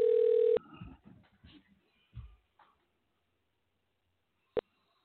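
Telephone being dialed to call into a show: a steady dial tone cuts off, followed by a few faint handset clunks and then one short, sharp electronic beep.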